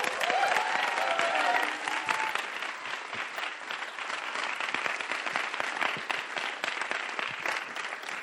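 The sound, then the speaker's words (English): A church audience at Christchurch applauds to welcome a preacher. The clapping is strongest for the first two seconds, then settles into a lighter, sustained patter of many hands. “So I wonder whether you give him a warm welcome as he comes now to preach to us.”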